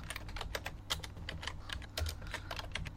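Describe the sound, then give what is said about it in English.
Rapid typing on a computer keyboard while searching Google for a number generator: a steady run of many quick, light key clicks, fairly faint, with no voices. “Okay. Yeah. And let me get out my number generator here. I just go to Google usually and type in number generator.”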